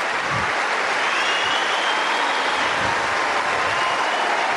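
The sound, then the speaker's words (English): Crowd applause at the 2022 Wimbledon men's tennis final, a sustained, even roar of clapping that stays loud and unbroken with no talk above it. “And this crowd simply applaud greatness.”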